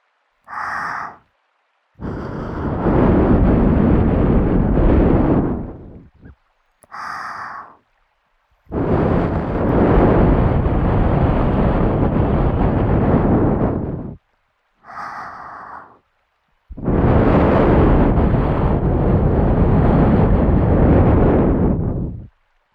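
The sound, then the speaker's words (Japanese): Breath blown onto a microphone to clear small bits of earwax during an ear-cleaning session: six breathy gusts alternating short and long, each a loud, airy rush, with no talk. “最後にこうして小さな耳垢を飛ばしてしまった方がいいので、もう少し息を吹きかけていきますね。”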